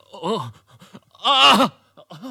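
A wounded man groans in pain while doctors tend him: a few drawn-out, wavering moans, the middle one loudest and longest, separated by brief quiet breaths.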